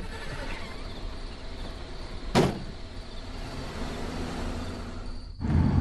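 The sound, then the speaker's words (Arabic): A window being opened in a dark place, heard over a steady low rumble: one sharp knock midway, then a heavier, louder rumbling shift near the end. “افتحي الشباك وأضيئي أمامي.”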